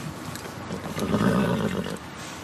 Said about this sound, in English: I think you have a horse. I think we have a horse.